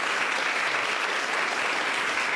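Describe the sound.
Dense audience applause for a poet at a reading, a continuous, even wash of many hands clapping at steady loudness with no clear breaks.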